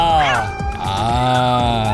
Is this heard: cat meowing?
yes